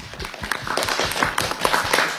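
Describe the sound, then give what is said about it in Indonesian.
Applause for the children of RA Al Munawara: many quick, sharp hand claps in an irregular, overlapping cluster at moderate loudness, swelling slightly after the first half second. “Kita kasih tepuk tangan dulu.”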